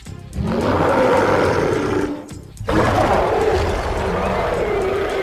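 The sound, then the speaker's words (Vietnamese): A male wild beast roars in pain: a loud, rough, sustained roar, a brief dip, then a second long roar that carries on to the end. “Thú đực gầm rú vì quá mức đau đớn.”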